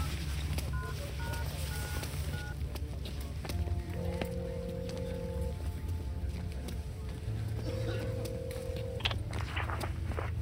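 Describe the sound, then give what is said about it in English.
A telephone number being dialed: a series of short, clear electronic beeps in quick succession over a steady low background drone, followed later by a few longer, lower steady tones. “I dialed the number.”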